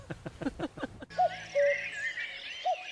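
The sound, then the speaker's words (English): Cuckoo calls: a few short, clear, hollow notes, each alone and spaced apart, follow a brief stretch of talk at the start. “Did you hear the sound of the cuckoo? The cuckoo is a bird with a long tail and a very distinctive cry.”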